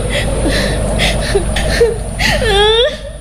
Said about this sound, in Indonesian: Loh, kok malah nangis lagi?